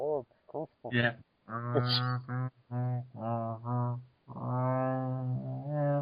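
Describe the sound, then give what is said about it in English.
Whale-like sounds from a voice: long, drawn-out moaning tones, loud and steady, some held for over a second, broken by a few shorter syllable-like bursts. “Sounds like whales. That, I think that sound like whales.”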